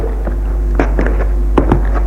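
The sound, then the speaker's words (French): Footsteps walk along a corridor and up the stairs: several irregular, soft thuds over a constant low hum, with no talking. “Toujours ses pas, longe le couloir, monte à l'étage au-dessus. Toujours ses pas.”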